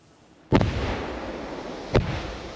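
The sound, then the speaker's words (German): Controlled detonation in a forest at Wöbelin near Ludwigslust of two WWII anti-tank mines, each holding just over 5 kg of explosive: a sudden sharp blast with a long rumbling tail, then a second, slightly weaker crack about a second and a half later. “Zweimal gut 5 Kilo Sprengstoff aus dem Zweiten Weltkrieg gezielt gesprengt im Wald von Wöbelin nahe Ludwigslust.”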